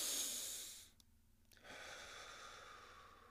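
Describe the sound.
A deep breath is drawn in during breathwork, heard as a quiet, airy hiss. A short pause follows, then another long, soft breath sound continues to the end.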